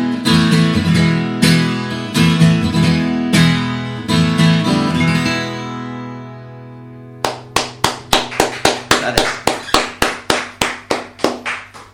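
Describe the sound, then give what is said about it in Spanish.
People clapping their hands in a steady, even rhythm, many sharp crisp claps that start after a stretch of music dies away and carry on to the end. “Aplaudimos nosotros porque Gonzalo está grabando.”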